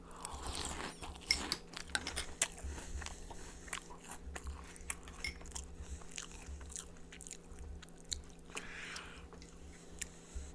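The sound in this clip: Crunchy chocolate breakfast cereal being chewed: many crisp bites and crunches in an irregular rhythm, fairly quiet, with no talking.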